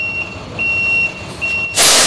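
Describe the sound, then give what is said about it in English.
A small moving truck backs into a garage while its reversing alarm sounds steady, high-pitched beeps. A sudden loud hiss follows at the end. “As a small moving truck backs into a garage at the Advanced Learning Library”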